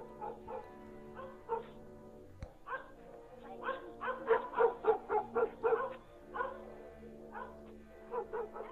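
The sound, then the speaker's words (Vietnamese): A dog barks in irregular bursts, with scattered single barks and then a quick run of sharp, tonal yaps in the middle before the barking tapers into a few more spaced calls. “Nó cũng cắn, cũng sủa. Cái tiếng sủa của nó cứ nhát gừng, đứng từ đằng xa cụp đôi mà sủa về phía bà Hào”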